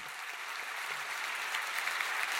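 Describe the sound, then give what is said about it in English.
Applause fills a grand hall at a New York City Public Library event, a steady, dense roar of many hands clapping that holds an even loudness throughout. “That applause is from last Thursday”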